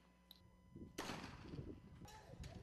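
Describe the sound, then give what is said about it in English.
Police fire a tear gas bomb during a riot: one sudden loud blast, then a sustained rough, noisy rumble with a second burst near the end. “Here's a policeman using a tear gas bomb.”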